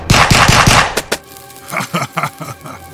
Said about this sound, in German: Die Kugeln prallen vom steinigen Körper des Monsters ab.